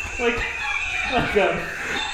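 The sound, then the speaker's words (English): A person's voice imitates a turkey gobbling, giving a brief, loud, warbling throaty call with rapid fluttering pitch. “It sounds like you're at like a museum and you hit the button to hear what like a turkey sounds like.”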